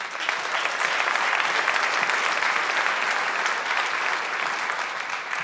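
An audience applauding as a guest is welcomed onto a stage: a steady, dense wash of clapping that holds at an even level throughout.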